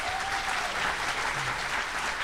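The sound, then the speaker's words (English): Audience applause from a crowd at an evening show, a dense, steady wash of many hands clapping that holds at an even loudness from start to finish. “How many of you here tonight are Cartersville, Bartow County? Give us just applause.”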